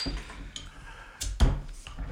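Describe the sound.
Bottles are opened by an old hand technique, with a few short clicks and knocks and one heavier dull pop in the middle, set against a quiet background.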